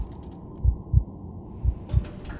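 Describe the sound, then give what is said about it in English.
Heartbeat thumps, low and muffled: four soft thuds grouped in two double beats, steady and even, over a faint background hum. “The clanging of the gears and pulleys of the elevator were but a whisper against the thunderous sound of her heart drumming inside her chest.”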